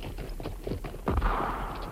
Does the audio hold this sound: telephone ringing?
no